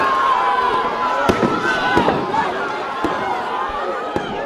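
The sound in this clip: Firecrackers going off at a street celebration of an Ivory Coast football win, watched at an Africa Cup gathering. A few sharp, separate cracks stand out over steady crowd noise and voices.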